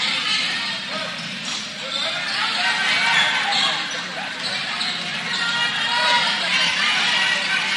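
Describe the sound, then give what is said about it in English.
Basketball dribbled on a court during a high school girls' game, with steady bounces under continuous crowd noise and chatter. “Dribbling the basketball”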